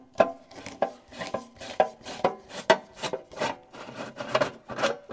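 A screwdriver working the screws out of a toaster's casing, making many short, scratchy rasping strokes in a quick, uneven rhythm.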